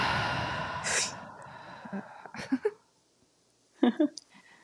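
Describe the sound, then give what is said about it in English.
A deep breath taken during a guided breathing exercise: a long, soft, breathy rush of air, then a quiet pause, then a few brief breathy sounds as the breath is released. The sounds are faint. “This last one, the biggest one you've had all day, holding at the top, breathe in and hold and exhale.”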